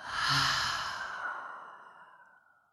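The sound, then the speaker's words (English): A single deep exhale through an open mouth, a breathy, airy rush that swells quickly and then fades slowly over about two and a half seconds, heard on its own. “So go ahead and inhale in through the nose. Open your mouth and exhale.”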